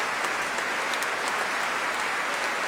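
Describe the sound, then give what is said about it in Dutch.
A concert audience applauds after a performance of French sacred baroque music and calls for an encore. The clapping is a dense, steady, rain-like wash that stays at an even level. “En terecht, groot applaus.”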